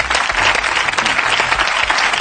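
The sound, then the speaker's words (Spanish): An audience claps in steady, dense applause, a brief burst of many hands that stays loud and even throughout. “Aplaudan el juego de palabras, hombre.”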